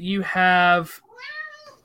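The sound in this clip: A cat meows twice: a drawn-out, strongly voiced meow followed by a higher, softer one after a brief break.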